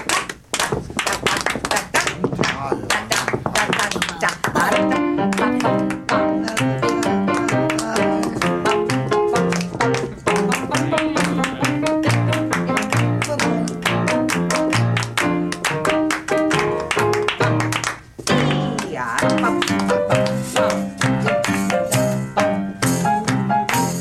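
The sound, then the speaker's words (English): Rhythmic hand clapping and foot tapping during a dance in a music therapy session, many sharp, even beats over steady musical tones. The beating continues throughout, with one brief pause partway through. “Everybody, this is a dance. And you can do it with your hands and feet. Clap, clap, clap,”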